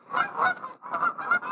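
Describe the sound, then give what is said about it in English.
Geese honk outdoors in a dense run of raspy, nasal calls that overlap into two loud bursts with a brief dip between, with no talk over them. “That's the geese because we're out. The geese are grateful.”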